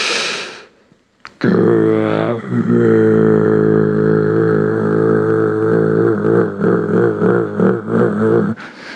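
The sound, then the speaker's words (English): Throat singing: a low, steady drone rich in stacked overtones, held for about seven seconds after a brief breathy onset, with a gritty, pulsing texture toward the end before it cuts off. “Can feel like Grandpa's tractor. Throat singing.”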